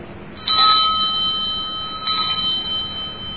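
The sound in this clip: A bell rings with two strikes about one and a half seconds apart. Each strike gives bright, high, sustained tones that fade slowly, with no talk.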